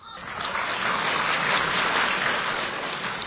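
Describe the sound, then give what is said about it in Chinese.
Audience applause greets a duo of performers being introduced on stage at a live comedy show. The dense, steady clapping holds at an even level for about three seconds with no voices over it. “掌声有请。”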